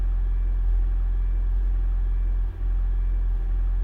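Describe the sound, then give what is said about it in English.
Low, steady engine rumble from a full hybrid Toyota Prius charging its battery as the gas pedal is first pressed, holding an even drone throughout with one brief dip midway. “That is the sound of a full hybrid Toyota Prius charging its battery when you first press the gas pedal.”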